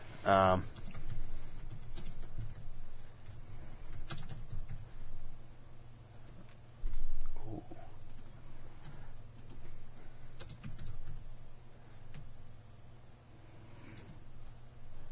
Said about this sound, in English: Type it in.